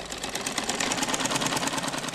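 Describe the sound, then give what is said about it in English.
A sewing machine runs as girls stitch and line purses, giving a steady, rapid mechanical whirring with a fast, even clatter throughout. “we find a couple of girls stitching and working on sewing machines.”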